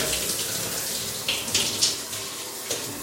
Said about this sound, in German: Dann wollen wir mal duschen. Ist das herrlich.